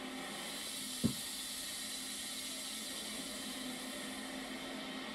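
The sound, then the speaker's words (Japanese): A giant robot sound effect gives off a steady, even mechanical hiss like venting steam, broken near the start by a single short, heavy thump. “お、これは何でしょう。 今流れてきた音は巨大なロボットの音ですね。”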